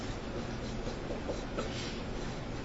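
Words are written on a board with faint, scratchy strokes that run almost continuously at a low level.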